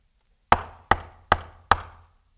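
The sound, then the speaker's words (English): Four firm knocks on a door, evenly spaced about half a second apart, each a sharp hollow thud with a short decay, heard alone without voices. “And so he stands outside knocking.”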